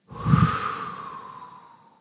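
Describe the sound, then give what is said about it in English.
A deep breath during a meditative breath-hold exercise: a single airy rush that swells quickly and fades gradually over about two seconds, heard alone. “When you're through with the breath hold, take another deep breath in, blow out the content of the mind again”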